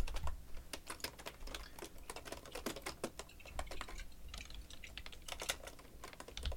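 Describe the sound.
Typing on a computer keyboard: a quiet, irregular patter of many soft key clicks in uneven bursts with brief gaps, with no talk.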